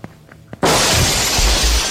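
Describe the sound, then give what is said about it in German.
Window glass shattering as someone leaps through a window, in an audio drama: a few faint taps, then a sudden loud crash of breaking glass that keeps rattling and scattering to the end. “Sie blickte mich lange und eindringlich an. Dann nahm sie Anlauf und sprang aus dem Fenster.”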